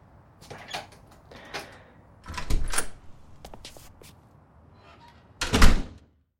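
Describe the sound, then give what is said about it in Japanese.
A front door is unlocked with a key and opened: a few clunks, clicks and rattles of the lock and handle, ending with a louder thud. No one speaks. “大丈夫？鍵出せる？よかった。あ、開けるね。”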